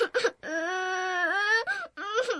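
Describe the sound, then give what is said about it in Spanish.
A woman crying hard, a loud, drawn-out wailing sob held for over a second, broken by brief gasps and shorter, wavering cries. “Ella que me saluda y yo que me pongo a llorar con todas mis fuerzas.”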